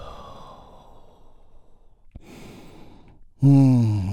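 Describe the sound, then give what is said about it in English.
A deep breath taken during a guided breathing exercise: a slow, faint inhale, then a loud, voiced exhaling sigh near the end. “we will lead the way by taking a big, deep healing breath. All together, here we go. And release.”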